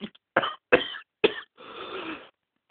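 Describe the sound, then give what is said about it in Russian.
Angry coughing comes as a few harsh, abrupt coughs in quick succession, followed by a longer rasping, breathy grumble. “Злобно кашляет, ругается, вздыхает”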